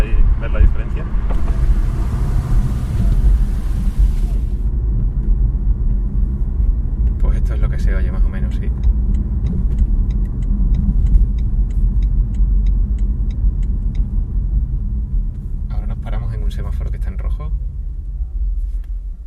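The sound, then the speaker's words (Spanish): Steady low road rumble inside an electric car driving at about 40 km/h with the windows closed, with a brief hiss in the first few seconds and occasional faint clicks over the constant drone. “Vamos a cerrar las ventanillas otra vez ahora que vamos en marcha a unos 40 km por hora”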